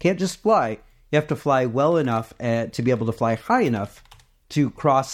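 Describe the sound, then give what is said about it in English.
Clicking of typing on a computer keyboard as a search is entered, quick taps running beneath a voice that keeps talking throughout. “The keyboard sound you're hearing is me typing in, can parakeets fly, into Google?”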